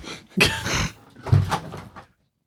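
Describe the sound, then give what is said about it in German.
Someone shuts a window in two quick movements, a scraping shove followed by a second knock. After that the sound cuts to silence. “Oh, ich muss mal kurz das Fenster zumachen.”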